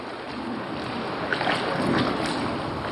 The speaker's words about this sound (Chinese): 此刻科研人员正划船进入探测器内部，对这里的设备进行集中维修和更换。